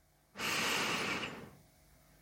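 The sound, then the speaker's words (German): A single deep inhalation, a loud, breathy rush of air drawn in for about one second that then fades away, with no talk around it. “Alles ist okay. Atme tief ein.”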